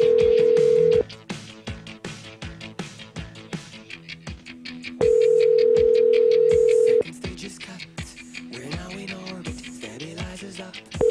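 An outgoing phone call rings: a steady, mid-pitched ringback tone sounds in long bursts, one short at the start, a longer one midway and another beginning at the end. Busy background music plays underneath.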